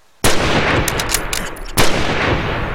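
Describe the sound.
Two loud gunshots from a gun fired at squirrels up in a tree, about one and a half seconds apart, each a sharp crack followed by a long, sustained noisy tail.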